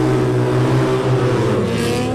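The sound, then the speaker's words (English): Racing sidecar outfits, among them an 800cc Triumph Westlake, roar away together at a mass start of a final race. Their engines form a loud, dense, sustained drone with steady tones throughout. “If you've never seen a sidecar mass start, stand by. Here we go, sidecars, final race of 2026.”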